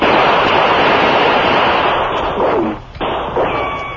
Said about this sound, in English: Then separate. Shots come from every side of building.